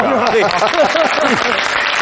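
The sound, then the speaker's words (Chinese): Studio audience applause on a Chinese cooking show, praising a cook's knife skills while dicing carrots. Loud, steady clapping continues throughout, with a voice talking over it. “可以啊，还这么好刀口，你看看， 还得鼓掌啊。”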